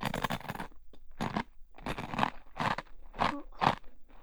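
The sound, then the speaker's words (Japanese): Food being bitten and chewed gives several loud, crisp crunches in uneven bursts separated by short pauses, with no talk. “じゃあこれが最後です。あとは自分で食べてくださいね。”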